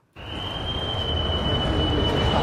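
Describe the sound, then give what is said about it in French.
Busy train station ambience at Bern station: a steady, loud rumbling din with a sustained high whine, starting abruptly and continuing evenly with no clear speech. “Catherine s'est rendue à la gare de Berne, où transitent quand même chaque jour 100 000 personnes”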